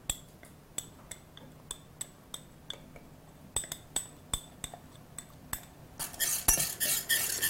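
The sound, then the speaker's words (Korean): A metal spoon clinks against a bowl as grain syrup is stirred into a cooked flour paste. Many light, evenly spaced taps lead into a denser, louder run of scraping and clattering at the end. “이것도 동일한 방법으로 먼저 풀을 쓰는 거예요. 지금 조청을 한번 넣어 보겠어요.”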